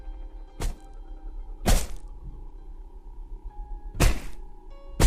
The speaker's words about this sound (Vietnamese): Tay nó giơ cao cục đá rồi liên tiếp đập lên đầu chị.